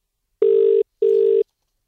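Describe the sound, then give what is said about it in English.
Two ringing tones of an outgoing telephone call, each a steady mid-pitched electronic burst of under half a second, separated by a short silent gap, with no voices. “Let's ring him back because he promised us he'd be available right now. And we got the voicemail. How good was that? The George Costanza-inspired voicemail message. Let's try him again.”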